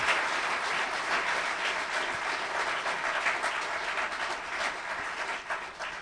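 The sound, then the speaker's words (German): Sustained applause from a crowd at a faith-healing service: dense, continuous clapping that holds at a steady, fairly loud level for the whole stretch, with no break. “Come on, let's give Jesus a big hand.”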